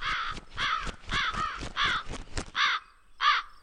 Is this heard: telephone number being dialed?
no